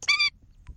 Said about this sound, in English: that's the sound of the endangered Indian skimmer bird.